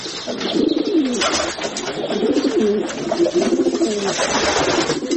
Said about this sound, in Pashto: اوس شنو کوترو پکې ځالې جوړې کړې دي.